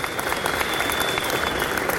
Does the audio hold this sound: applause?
yes